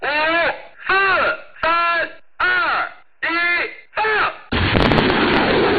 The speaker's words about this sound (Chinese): 发射指令下达，火箭弹呼啸出膛，直扑100公里外的海上靶区，首轮打击精准覆盖目标。